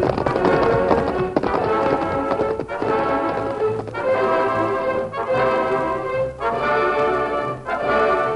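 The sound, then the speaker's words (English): Two horses ride off along a trail, their hoofbeats coming in rapid, steady, loud bursts in a regular galloping rhythm. “The Lone Ranger and Tonto turned and rode back along the trail.”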